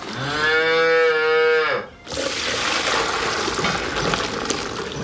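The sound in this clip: A seven-year-old high-yield dairy cow gives one long, low, harmonic moo in a robotic milking barn. The call lasts nearly two seconds, then a steady hissing, rushing watery noise takes over.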